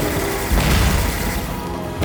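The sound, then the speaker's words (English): Explosions from a bombardment rumble as a dense, continuous roar with heavy, deep booms that swell around the middle and again at the end. “Every bombardment is an act of truth. Listen.”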